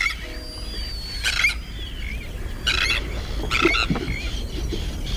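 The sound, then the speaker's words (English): High, thin whistling and twittering calls of a black guillemot, a seagoing alcid, on its far northern breeding grounds, coming in a few short bursts over a low, steady background rumble. “It's the black guillemot.”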